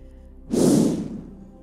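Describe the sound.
A long, breathy exhale let out during a guided breathwork exercise for stress relief. It swells suddenly into a loud rush of air, then slowly fades away, alone with no talking.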